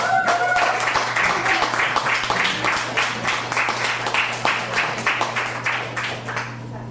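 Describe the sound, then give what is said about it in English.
Audience applause at a live music show at the Elm Cafe, with dense, steady clapping that carries on for several seconds and eases slightly toward the end. “let's give it up one more time for the Elm Cafe and Grace, who's taking care of us tonight.”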